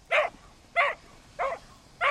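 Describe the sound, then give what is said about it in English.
A stout brown and white mixed-breed avalanche rescue dog barks four times, with sharp, evenly spaced barks and short quiet gaps between them. “the stout brown and white mutt has been trained and certified to dig people out of backcountry avalanches and track down missing people in the wilderness”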